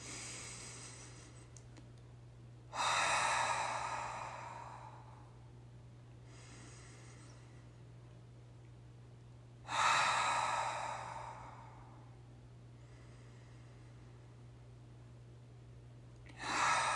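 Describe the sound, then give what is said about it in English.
Slow, deep breathing in through the nose and out through the mouth: three loud, airy exhales come about seven seconds apart, each trailed by a softer breath, over a steady low hum. “take a few deep breaths in through your nose and out through your mouth. Okay, do that with me.”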